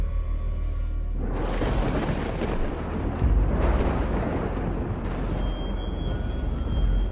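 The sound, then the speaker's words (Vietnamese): Thunder booming and rumbling: after a quiet start, a heavy, crackling roar breaks out and rolls on continuously, swelling louder at a few points, with a deep, low rumble underneath. “Ngoài trời nổi lên tiếng sấm đùng đoàng vang vọng cả bốn phương.”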